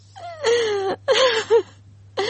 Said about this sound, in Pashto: ولې ژاړې ورته؟ ته څه خبره یې؟ څنګه به نه ورته ژاړم؟